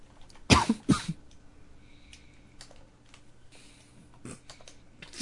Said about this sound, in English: now you're going to type good.